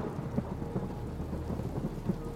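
Steady rain with deep rumbling thunder of a thunderstorm, a continuous low roar and hiss with a few slightly louder swells and no voices.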